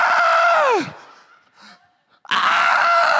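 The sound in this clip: A voice imitates a terrified scream: a loud, shrill cry slides sharply downward in pitch and breaks off, then after a brief near-silent pause another loud, harsh vocal outburst follows.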